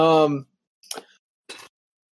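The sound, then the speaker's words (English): Dice being picked up off the ground: after a brief moment of speech, two short, dry clattering clicks follow in quick succession. “Let's pick up the dice I threw on the ground”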